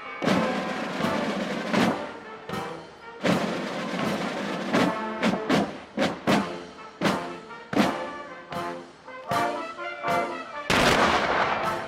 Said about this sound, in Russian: 200-летние мушкеты до сих пор исправны и готовы к стрельбе.